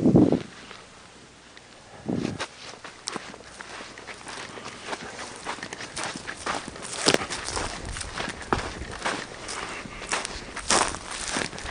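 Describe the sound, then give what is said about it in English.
Footsteps of people walking outdoors among fruit and shade trees: many steady footfalls in an uneven rhythm, with a few louder thumps standing out from the soft, continuous tread. “We'll walk back up this way.”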